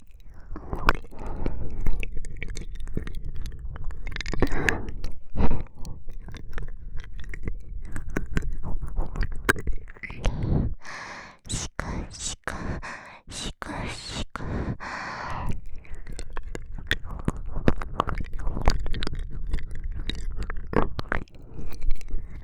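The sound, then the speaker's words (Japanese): Ear massage ASMR sounds: close, continuous rubbing and squishing with crackly, crunchy textures and occasional breathy bursts, swelling louder and then easing in waves. “それでは、こちらのお耳もマッサージさせていただきます。”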